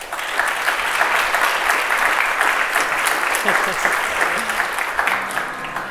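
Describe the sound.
Applause from an audience welcoming the hosts at a live session of the London Walking and Cycling Conference, a dense, steady clapping that holds at an even level for about six seconds.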